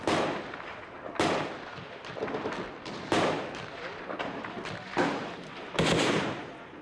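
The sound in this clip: Gunfire and a grenade blast in Afghanistan combat footage with Taliban fighters: several sharp, loud bangs at irregular intervals, each trailing into rumbling noise, with fainter cracks between.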